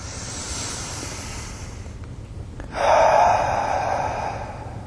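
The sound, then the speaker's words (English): A deep breath drawn in during a guided relaxation exercise, a long, airy inhale that swells partway through and then slowly fades, after a quieter stretch of soft breathy hiss. “Take a deep breath again in,”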